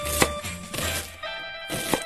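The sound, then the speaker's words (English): A knife chopping an onion into small pieces, giving a few sharp knocks spread across a steady hiss of kitchen noise, with no talking. “Just chop the onion into small pieces.”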